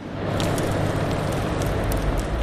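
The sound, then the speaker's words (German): A machine that has been switched on runs with a loud, steady roar. Broad hiss rides over a deep rumble, with no pauses or changes in level. “Maschine an.”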